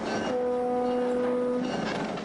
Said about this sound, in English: When at last the next train chugs slowly past, the immigrants rush forward and leap clumsily for its side ladders.